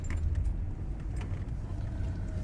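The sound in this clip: Steady low engine and road rumble from a car driving for hours through the outback, continuous and even throughout, with no voices.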